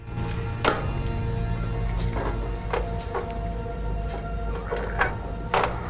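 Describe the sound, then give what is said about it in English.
A stuck breaker switch lever is forced with both hands, giving several irregular metallic clunks and thuds over a steady low hum. “Against a wall, he finds the breaker switch and struggles to throw it, even with both hands.”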